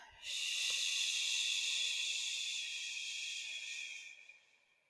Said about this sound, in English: For me is an inhale, and then on the exhale, making a shushing sound.